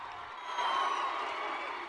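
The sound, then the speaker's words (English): A crowd at a school rally claps and cheers, led by cheerleaders, a fairly soft, continuous mix of applause and voices that swells briefly midway before settling. “The cheerleaders jump up and down and lead the applause excitedly.”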